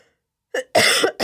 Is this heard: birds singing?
no